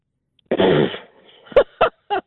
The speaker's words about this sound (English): That was what I'd call a bemused snort. Yeah. Yeah, the old raspberry.